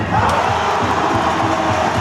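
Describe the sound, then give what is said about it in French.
A handball crowd roars at the Maison des Sports in Clermont-Ferrand as fans back the Cournon side during a comeback match. The loud, dense cheering holds steady throughout, with no break. “Une ambiance survoltée dans la Maison des Sports de Clermont-Ferrand.”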